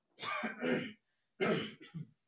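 Throat clearing in two rough, guttural bouts with a short silence between, each made of a few quick harsh rasps, fairly loud and alone without speech.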